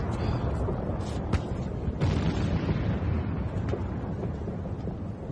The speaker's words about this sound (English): These are ranging shots. The Russians are trying to shell the main road from the heights.